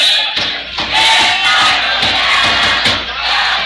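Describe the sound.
Home fans at a baseball game raise a loud, sustained crowd roar of shouting voices that briefly dips near the start before surging again and holding steady.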